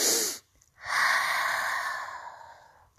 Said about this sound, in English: I'm going to do a little meditation here by the ocean as you relax. Take a deep breath